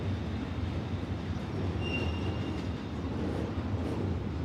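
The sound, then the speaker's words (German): A freight train rolls along the harbour railway at the port of Stuttgart, a steady, loud rumble of wheels on rails with a brief high wheel squeal partway through. “Zum Stuttgarter Hafen gehört auch eine Hafenbahn. Sie dient ausschließlich dem Güterverkehr.”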